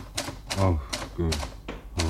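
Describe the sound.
Typewriter keys striking in a radio drama scene, several sharp clacks spaced unevenly, with a low voice-like murmur mixed in beneath the strikes.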